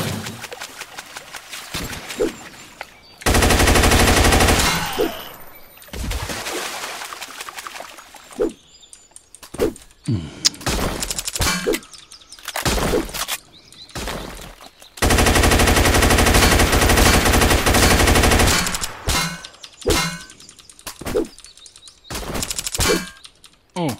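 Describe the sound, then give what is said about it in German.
Machine gun fire in a video game: two long, loud sustained bursts mixed with many shorter volleys and single shots, separated by brief quiet gaps. “Ich habe keine Munition mehr für mein Maschinengewehr.”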